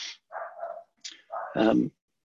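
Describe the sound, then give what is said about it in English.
A dog barks in the background during a finance report, a few short, sharp yelping barks in separate bursts, with the last one longer and fuller. “Excuse me if you can hear the barking in the background.”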